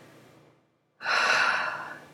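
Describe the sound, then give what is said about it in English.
A deep breath is drawn in sharply: a loud, airy inhale after a brief silence that slowly fades. A softer breath sound comes just before the pause. “Take a breath now.”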